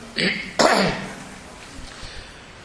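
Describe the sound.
A cough in two quick, rough bursts with a throat-clearing quality, followed by quiet.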